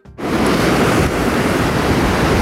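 Strong gusts of wind in Liepāja during an outdoor announcement of a culture programme, a loud, continuous roaring and buffeting that starts abruptly and stays heavy without letting up.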